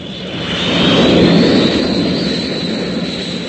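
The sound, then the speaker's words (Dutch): Roar of a large airplane flying low overhead: a broad, steady rumble that swells toward a peak near the middle, then eases slightly, with a thin high whine running through it. “Zo'n groot vliegtuig heb ik nog nooit gezien.”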